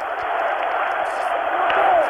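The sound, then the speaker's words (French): Crowd cheering and acclaiming the French head of government, a dense, steady roar of many voices that holds through the whole stretch without pause. “entendez la foule qui l'acclame, de Gaulle, de Gaulle”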